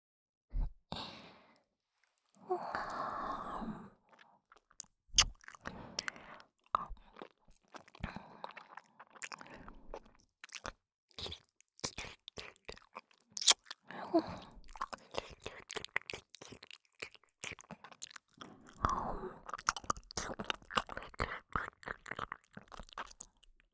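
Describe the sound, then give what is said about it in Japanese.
Wet ASMR ear-licking mouth sounds, with many close smacks, slurps and clicks coming in irregular bursts, interspersed with a few soft breathy sighs and brief quiet pauses. “体もほてってるからすっごい舐めやすい。お耳の中ほっかほかでとってもおいしいですよ。”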